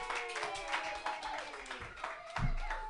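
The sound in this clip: Applause from an open-mic comedy audience welcoming a comedian, a steady quiet patter of many hands clapping with voices and tonal sounds riding over it.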